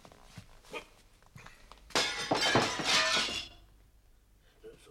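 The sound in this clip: Window glass smashed with a stone: a loud crashing shatter lasting over a second, with bright splintering tinkles, after a few faint knocks, then quiet.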